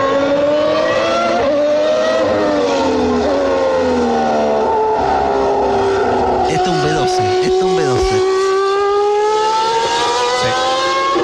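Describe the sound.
A Formula 1 racing car's V12 engine screams at high revs, its loud, harmonic whine wavering and sliding up and down in pitch.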